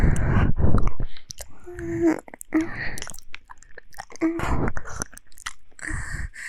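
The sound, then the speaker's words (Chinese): Someone eats with irregular crunchy bites and wet chewing, coming in uneven bursts with short gaps between them. “不是正在吃的呢吗？我正在吃。”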